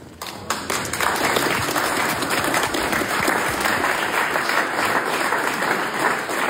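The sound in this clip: Applause greets the unveiling of a painted portrait of Søren Gade, outgoing Speaker of the Danish parliament, at Christiansborg. Clapping breaks out abruptly, then settles into a steady, dense patter that continues to the end.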